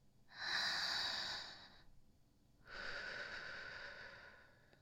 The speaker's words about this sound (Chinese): 来，先慢慢吸气，然后吐出来。